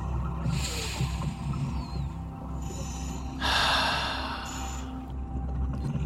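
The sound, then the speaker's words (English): A deep breath drawn in and let out, guided as a calming exercise: a long, airy inhale, then a louder, breathy exhale, ending in a brief soft puff of air. “Why don't we take a deep breath together?”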